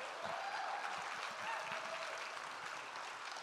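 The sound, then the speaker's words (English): Applause from a church audience welcoming a guest speaker, a dense and even wash of clapping that holds steady from start to finish. “So why don't you put your hands together and give a warm Central welcome to Lisa Varga.”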